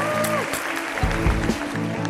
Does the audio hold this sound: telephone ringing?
no

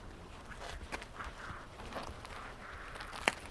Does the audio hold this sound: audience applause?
no

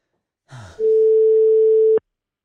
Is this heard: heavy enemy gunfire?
no

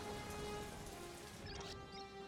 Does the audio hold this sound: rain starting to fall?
yes

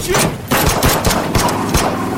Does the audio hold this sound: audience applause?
no

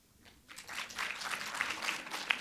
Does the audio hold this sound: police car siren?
no

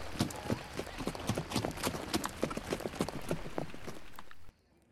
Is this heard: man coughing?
no

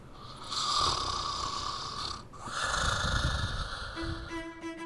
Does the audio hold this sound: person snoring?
yes

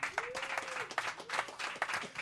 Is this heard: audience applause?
yes

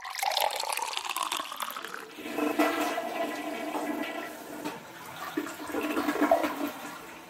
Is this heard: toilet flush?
yes

